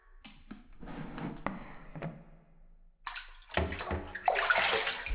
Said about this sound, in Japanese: 終わりましたので、お湯で流させていただきますね。少し下を向いていただけますか。